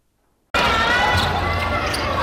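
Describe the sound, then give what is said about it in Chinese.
Basketball dribbling on a court at a youth basketball tournament, with a few bounces beneath a dense, steady wash of crowd noise and voices that begins abruptly and stays loud. “篮球场上传来运球声与喝彩声”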